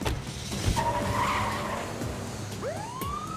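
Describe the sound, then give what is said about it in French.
A fleeing van speeds off during a police chase. Tires screech loudly over a rushing engine, and a rising, siren-like wail cuts in near the end. “Mais le véhicule démarra et la poursuite reprit.”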